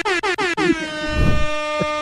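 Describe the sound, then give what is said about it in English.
Air horn sound effect: three short, loud, clipped blasts in quick succession, then one long sustained blast with a rich, buzzing tone that holds to the end, with a low rumble underneath. “I don't even know what I would use this air horn for.”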